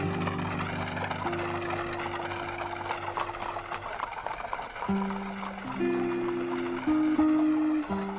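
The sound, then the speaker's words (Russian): Horses' hooves clatter on wet cobblestones during a nighttime wedding procession, many quick clops running throughout under sustained low tones. “Свадебная процессия едет по темным улицам, освещаемым тусклым светом фонарей. Под копытами лошадей поблескивает мокрая мостовая.”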